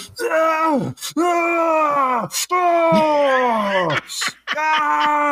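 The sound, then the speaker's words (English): A man's voice imitates another man's groans while lifting heavy weights in a gym, half pained and half sexual. Four long, loud, strained groans each fall in pitch at the end, separated by sharp breaths. “every time he did, he was making a sound that was like part pain, part sexual”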